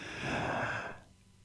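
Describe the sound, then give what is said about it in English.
A deep breath drawn in during a guided breathing exercise: one soft, breathy rush of air lasting about a second, then fading away to near silence. “So do it with me. All right. Breathe in deep. Here we go.”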